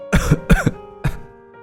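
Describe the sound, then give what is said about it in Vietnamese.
An old woman coughs violently in a few harsh, rasping bursts separated by short pauses. The coughs are loud and heard alone, with no talk around them. “Bà nói rồi ho lên dữ dội.”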